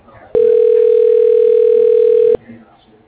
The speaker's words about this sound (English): Dialing.